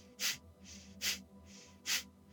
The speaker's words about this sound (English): Sharp breaths out the nose.